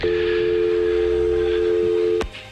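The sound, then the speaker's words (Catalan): A steady telephone tone as a call to an operator is placed in 1937: a loud, even hum holds for about two seconds, then a sharp click cuts it off, leaving faint background noise. “Es produeix quan un ministre de la República Espanyola intenta trucar al president de la Generalitat, Lluís Companys.”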